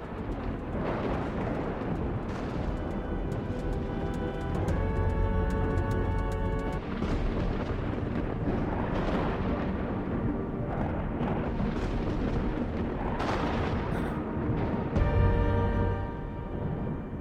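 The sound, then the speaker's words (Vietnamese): Lightning strikes crashing down amid continuous rolling thunder, growing fiercer; a loud, deep, sustained rumble with repeated surging crashes and a few tonal swells layered over it. “Lôi điện cũng đang điên cuồng đánh xuống, càng lúc càng trở nên dữ tợn.”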